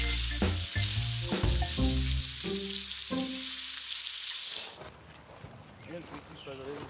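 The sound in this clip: Chicken skewers and lamb sizzle as they are seared quickly in a hot pan, giving a steady, crackling fry that fills the whole stretch.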